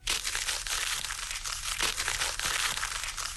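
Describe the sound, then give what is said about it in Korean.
Continuous crinkling and crackling of paper being rustled and crumpled, a dense, bright texture with small repeated bursts throughout and no voices. “아, 이거는 같은 소리가 계속 반복이 되고 있는데 장작 타는 소리랑 정말 비슷합니다만 이 소리는 바로 종이 부스럭거리는 소리입니다.”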